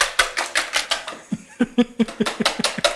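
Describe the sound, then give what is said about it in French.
A whisk beats two whole eggs and two yolks in a bowl, a fast, steady run of sharp clattering strokes against the bowl at roughly five per second, continuing throughout. “Et puis ici, on va battre les œufs. 2 œufs entiers et 2 jaunes. Donc on bat. Je fouette.”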